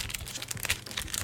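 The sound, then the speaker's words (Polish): Faint crinkling and rustling of plastic blister packaging as it is pulled out of a box holding a MyCharge Peak 6000 power bank, a few soft crackles with no talk. “O, wyciągam blister. Do blistra od spodu są przyczepione papiery wszelkie.”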